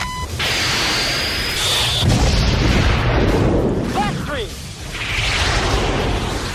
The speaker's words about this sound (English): Here comes the shot.